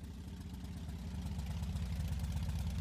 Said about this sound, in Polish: Pięknie chodzi. Około 5000. Jak na motor tej klasy to jest bardzo dużo i jeszcze pewnie dużo, dużo pochodzi.